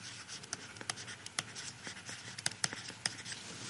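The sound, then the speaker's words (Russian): A symbol is written by hand: many short, faint scratchy strokes come in an uneven rhythm, some sharper ticks among them, with no talking. “Я пишу только, я возьму только значок, такое подобие.”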